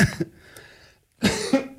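Coughing from a pretzel stuck in the throat: two bouts of harsh coughs separated by a brief silence, the second bout fuller and longer.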